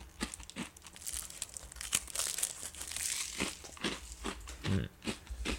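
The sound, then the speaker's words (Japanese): Quiet crinkling of snack packaging and crunching as crunchy snacks are eaten, a continuous run of many small crackles and rustles with a few sharper crunches. “お菓子も食べちゃうしこれほんと美味しいよね。”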